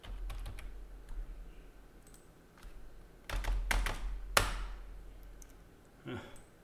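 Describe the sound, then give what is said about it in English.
Faint clicks of typing on a computer keyboard that seems to be malfunctioning, during a tabletop role-playing game session. Scattered keystrokes give way to a denser flurry of clicks in the middle, then a few more taps. “My keyboard's not working or something's going on, but that's fine.”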